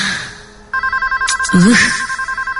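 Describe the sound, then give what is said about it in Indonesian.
A telephone rings in a room with a rapid, pulsing electronic trill that starts suddenly and keeps going, while a brief voice cuts in over it partway through. “ini telepon bikin kaget aja deh . Ada suara telepon berbunyi di kamar itu.”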